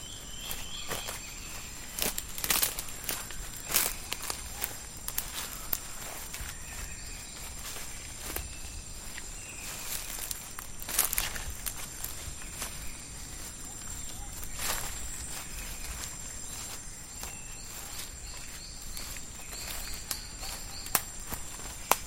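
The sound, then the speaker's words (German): Footsteps walk through a dense forest, making irregular soft crunches and snaps under a steady, high chirring of insects. “Schritt für Schritt wandern wir durch diese prachtvolle, dicht gedrängte Welt aus Grün und Braun.”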